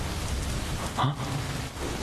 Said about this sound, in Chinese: 啊，下雨了， 没滑倒吧？